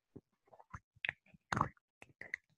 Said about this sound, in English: I just hear my lid sounds, my ASMR.